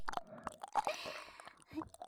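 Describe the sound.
Soft, moist chewing of strawberry-flavoured food, a few faint squishy smacks and bites spread irregularly through the quiet passage.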